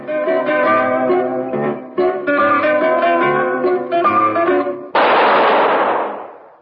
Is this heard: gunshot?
yes